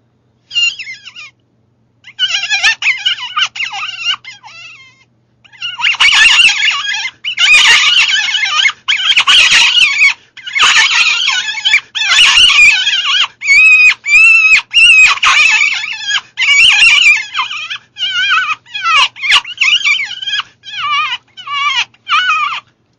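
A hunter's hand predator call imitating a bird's distressed cries, used to lure lions, coyotes and cats, blown as many shrill, screechy squeals in short bursts with brief gaps, loud and alone.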